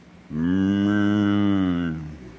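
A calf brought to an altar for sacrifice gives a single long, loud moo with a steady, low, richly harmonic tone lasting nearly two seconds and tapering off at the end, with no other sounds.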